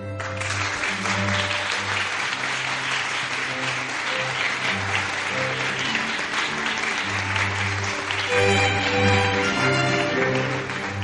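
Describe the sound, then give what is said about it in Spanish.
Audience applause greets the start of a radio programme about La Mancha, steady dense clapping running for about eleven seconds alone over a held musical tone, with no voices. “con vuestro aplauso y a modo de gasolina, comenzamos.”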